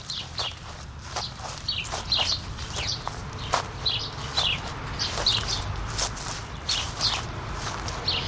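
Footsteps cross a flowering meadow where wild bees fly, many soft swishing steps in a steady rhythm, with birds chirping throughout.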